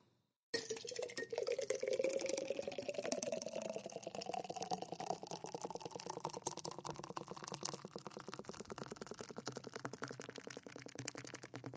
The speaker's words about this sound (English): Let's open a beer. Let's pour this beer in this cup.